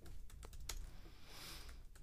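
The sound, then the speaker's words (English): Typing on a computer keyboard, with rapid, irregular key clicks that stay faint and continuous. “I did just write that down. You could hear the typing on my computer.”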